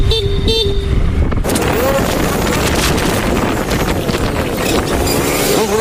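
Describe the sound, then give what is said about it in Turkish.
Car horn blasts from motorcycle couriers confronting a car after an illegal U-turn in Esenyurt traffic: a short stepped horn tone opens, then loud wind buffeting and road rumble fill the rest. “Korna çalıp tepki göstererek aracın önünü kestiler.”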